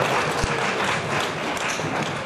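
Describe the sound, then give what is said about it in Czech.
Audience applause fills the moment: a dense, even wash of many hands clapping, steady and fairly loud for about two seconds. “No, můžete tleskat, takže to zakázáme ještě.”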